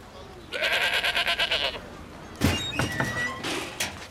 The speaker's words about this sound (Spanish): ¿Puedes dejar de estrangular a mi chivo?